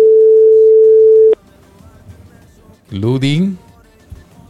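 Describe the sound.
A steady telephone line tone during a call holds at one even pitch for about a second and a half, then cuts off abruptly; after a short pause, a brief burst of a voice follows.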